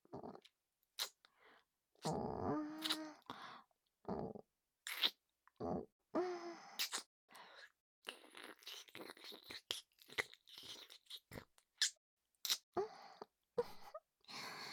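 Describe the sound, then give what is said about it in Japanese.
Wet kissing and lip-smacking sounds come in many short, sharp smacks in irregular bursts, with a soft moaning voice at times between them. “ついつい、キスに夢中になりすぎてしまいました。”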